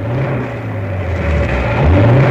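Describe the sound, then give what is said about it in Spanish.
A car engine drones with a low, steady rumble as a front wheel spins in mud in a deep ditch on a dark country road. The tone holds level throughout and swells slightly toward the end. “¡Demonios! El barro hace resbalar la rueda. No salgo de esta grieta.”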